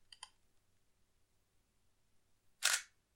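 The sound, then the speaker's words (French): A single-lens reflex camera shutter fires as a plain wall is photographed at f/22. Two faint quick clicks come early, then a quiet pause, then one louder, crisp mechanical snap near the end. “Donc moi, je vais me mettre à f22. Et ensuite, vous prenez votre photo.”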